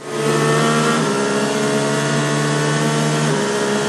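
A car engine revs hard in a turbo-mode sound effect: a loud, steady, high roar sustained for about four seconds with a slight shift in tone near the start. No voices are heard.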